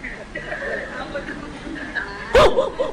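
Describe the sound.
A dog poised to pounce lets out a sudden, loud burst of barking near the end, after a stretch of people talking.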